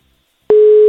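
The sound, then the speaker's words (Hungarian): A telephone busy signal sounds while someone is being called: silence, then a loud, steady electronic tone that switches on abruptly about halfway through and holds to the end. “vedd föl, keresünk.”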